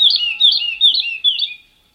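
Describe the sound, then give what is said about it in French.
A lark sings a few quick, bright, high-pitched chirping phrases in a steady repeated pattern. The song is clear and fairly loud, then stops and leaves silence. “il n'y a que l'oiseau, l'alouette de Messier, on n'a pas encore commencé à chanter”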